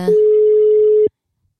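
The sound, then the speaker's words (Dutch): A ringback tone plays while dialing in on a phone call: one steady mid-pitched beep of about a second that cuts off into silence. “Wij, wij zijn uh, aan het inbellen. Hij gaat over.”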